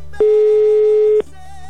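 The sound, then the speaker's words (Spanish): A telephone ringback tone sounds as a caller rings someone's phone: one steady, mid-pitched electronic tone lasting about a second, standing alone over a faint low hum. “ya está sonando, mi querido Juan, el teléfono de tu tocayo”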